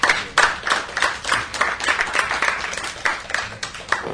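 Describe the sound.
Audience applause welcoming two guests on stage: steady, fairly loud clapping from many hands that continues for the whole stretch without a break or voices.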